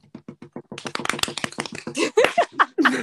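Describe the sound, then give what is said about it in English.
An improvised drum roll tapped out by hand: a few separate taps that quicken into a dense, rattling roll, growing louder toward the end. “Drum roll.”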